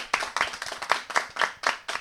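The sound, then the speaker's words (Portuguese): A small audience applauding at a live event in a bookstore, with sharp, evenly spaced claps at about four per second, steady in loudness and heard without talk. “Palmas para eles também, não merecem.”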